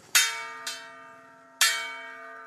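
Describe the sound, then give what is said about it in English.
A brass bell, rung by a Munduruku chief in an indigenous territory in Mato Grosso to call a community meeting, strikes three times, each a bright clang with a lingering, slowly fading ring; the second strike is softer. “the chief of the Munduruku tribe rings a brass bell to announce a community meeting with Paulo Nunes”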